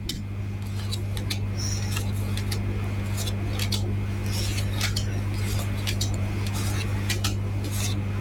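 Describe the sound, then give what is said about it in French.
Tarot cards laid down one after another: many short, crisp snaps and taps in an uneven sequence over a steady low hum, with no talking. “Je vais déposer les cartes les unes après les autres et un stop quand vous le désirez.”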